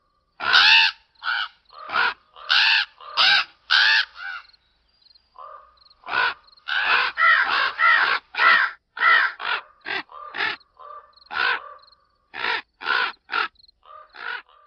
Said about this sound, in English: The mystery sound is a raven, a screeching warning. This call went on for over 20 minutes in the woods near Discovery Bay